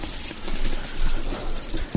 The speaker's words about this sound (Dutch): dan gaan we handen ontsmetten of handen wassen. Jullie mogen dat hier doen aan de wastafel